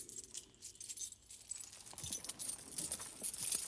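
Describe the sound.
Keys jangle at a dungeon door as faint metallic clinks and rattles, getting busier and a little louder in the second half.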